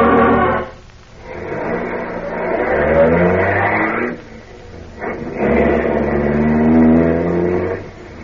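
A car driving off, its engine droning in a loud, low revving hum that holds steady, drops away briefly, then surges again into a second sustained pull, with no talking.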